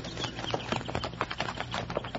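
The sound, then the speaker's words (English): Horses' hooves in a dense, quick, irregular clatter of clopping beats that runs steadily for about two seconds, with no voices. “those horses over there”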